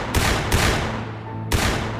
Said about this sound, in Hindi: किंतु अफसोस सिपाहियों ने कालीबाई को उसी समय गोलियों से भून